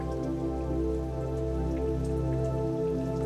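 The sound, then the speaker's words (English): Raindrops fall in a steady, even patter that continues throughout without a break, with a sustained tonal hum underneath. “As you feel the raindrops on your body,”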